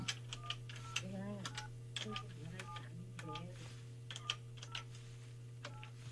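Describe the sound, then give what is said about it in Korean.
A telephone number is dialed on a push-button phone, producing a quick series of short, faint beeping tones over a steady low hum. “이분 세탁소 사장님이라고 하시는데 이분께 제가 한번 전화 한번 드려볼게요.”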